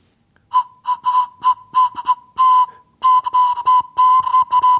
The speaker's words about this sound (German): Jetzt bräuchte ich nur noch so Grifflöcher, damit ich unterschiedliche Töne spielen kann. Bis jetzt macht die Möhre nur einen einzigen Ton.